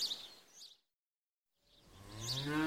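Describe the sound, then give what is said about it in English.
A cow moos with a low, harmonic call that swells and rises slightly in pitch. It follows a burst of higher chirping and a moment of silence. “Look! This cow is bigger than that cow. Yes, it's the mummy cow.”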